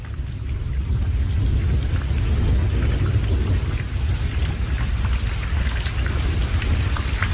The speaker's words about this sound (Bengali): তেমন সময় শুরু হল প্রবল বর্ষণ।